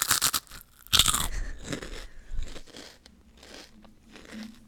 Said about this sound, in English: Those pork rinds are so good.